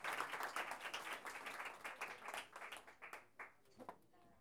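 Quiet audience applause at a folk-culture gathering as a performer comes forward; brisk clapping starts dense and thins into scattered claps before fading out.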